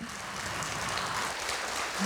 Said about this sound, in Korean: 다시 한번 큰 박수로 좀 화답을 부탁드리겠습니다.